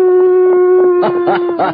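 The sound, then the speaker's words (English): A man imitates a coyote howl: one long, steady sustained vocal tone that turns rougher, with a few louder wavering bursts toward the end. “This has to be a coyote. Well, here goes.”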